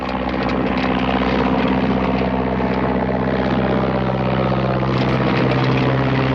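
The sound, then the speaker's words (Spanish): A small biplane's propeller engine drones loudly and steadily as it begins its takeoff run, a thick continuous roar with strong low harmonic bands and no break throughout. “El avión inicia la carrera de despegue.”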